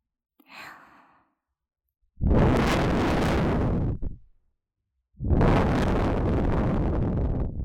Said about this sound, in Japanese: 息ふうするの忘れてましたね。じゃあしましょうか。